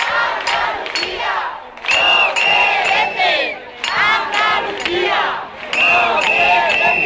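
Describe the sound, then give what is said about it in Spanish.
Crowd of about a thousand marchers at a housing-rights protest through the city-centre streets of Jerez, chanting loudly in repeated rhythmic bursts separated by brief dips. “Estos son algunos de los sonidos que ha dejado la manifestación convocada por el colectivo Jerez por la Vivienda”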